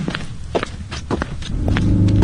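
Footsteps of someone walking, a few soft, evenly spaced steps, before a steady low hum builds up near the end.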